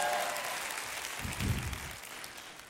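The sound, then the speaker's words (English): A church audience applauds and makes noise during a sermon, a soft, steady wash of clapping that eases slightly toward the end. “Make a little noise if you'll run alone before you'll compromise who you are in Jesus.”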